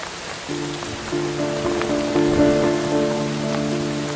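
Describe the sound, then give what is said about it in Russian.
A heavy downpour in the street outside a shop porch gives a continuous broad hiss of rain, while sustained tonal notes enter after a moment and layer over it, the whole getting somewhat louder. No one speaks. “На улице пошел ливень.”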